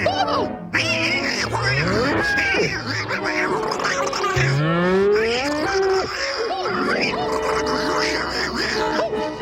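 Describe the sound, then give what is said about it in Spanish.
Cow mooing in a 1963 animated cartoon short: drawn-out mooing calls mixed with busy, quacking cartoon voices and other lively sounds that continue throughout. “¡Ven! ¡Ven, vaquita! ¡Venga! ¡Ah, vaquita bonita!”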